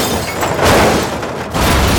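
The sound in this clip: Loud action movie sound effects: a dense, roaring crash and rumble fills the whole clip with broad noise, briefly thinning before swelling again, with no talk.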